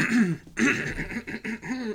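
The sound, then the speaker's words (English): Wet, throaty coughing and throat clearing from a person with a sore throat: several short, rough voiced bursts in a row, heard alone without talk. “No, just a sore throat. But I have a wet cough. A wet cough, not a dry cough.”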